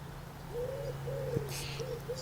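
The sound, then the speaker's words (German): Calls of a male starling near its nest: a few smooth, low whistled notes in an uneven series over a steady low hum, with one brief, bright burst of higher noise partway through. “Ich weiß nicht, ob ihr ihn hört, der Starenpapa.”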